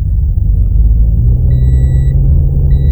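Low, steady rumble of a car engine as the car sets off, with an intermittent electronic warning tone chiming above it.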